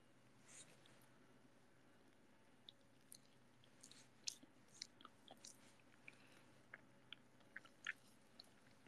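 Banana being chewed: soft, faint mouth sounds with many small, irregular wet clicks and squishes over a low steady hiss, with no talking.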